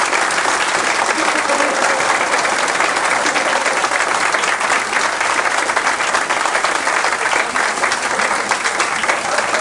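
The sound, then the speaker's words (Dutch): Sustained applause from an audience breaking out during a show, a continuous wash of many hands clapping at an even, loud level for the whole stretch. “af en toe hebben we wel eens dat de mensen gewoon applaus tussendoor krijgen. Maar ja, daar kun je niet om gaan schooien. Dat vind ik niet leuk. Maar het gebeurt wel eens dat ze... Hier, daar heb ik weer.”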